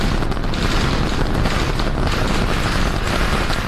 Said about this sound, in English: This moment, launching the most powerful rocket ever made, Starship.